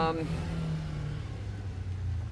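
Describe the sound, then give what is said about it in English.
A motorcycle revs outside as young men fool around with it, producing a steady low engine rumble that holds through the whole stretch at a moderate level. “There's some young men out there and they're fooling around with a bike, motorcycle.”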